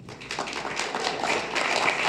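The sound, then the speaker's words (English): An audience applauds to welcome a speaker onto a panel, dense continuous clapping that stays loud and even throughout. “Standing ovation.”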